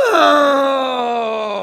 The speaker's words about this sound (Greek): Μη κλαις. Μη κλαις και είναι χρουσουζιά.